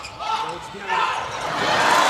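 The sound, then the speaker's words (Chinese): A volleyball serve in a match against Japan: a ball thumps amid loud, continuous crowd noise, with a voice talking over it. “好，发球。”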